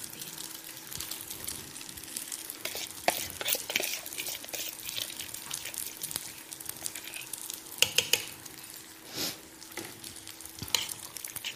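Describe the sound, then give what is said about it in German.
A spoon stirs a thick pasta and cheese mixture in a pot, making many irregular wet scrapes and squelches. The strokes come at an uneven rhythm against a faint sizzling background. “also gut, durchrühren, den ganzen Gatsch. Er muss noch nicht fest sein, unser Käse muss noch nicht fest sein.”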